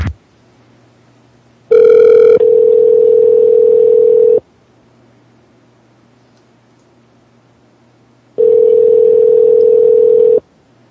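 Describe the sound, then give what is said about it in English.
Telephone line tone heard while placing a call back: a loud, steady low hum sounds in two long stretches of about two and a half seconds each, separated by a quiet gap. “We'll call him back one more time.”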